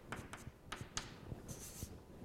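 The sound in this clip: Faint scratching of a pen or chalk writing an equation by hand during a maths lecture: a few short, quick strokes, then a longer scrape, with no talk.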